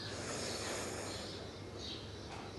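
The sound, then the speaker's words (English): A slow inhalation through the right nostril during alternate nostril breathing, with the left nostril closed, a soft airy hiss that stays faint and even for the whole clip. “Let's start closing the left nostril, inhale from the right.”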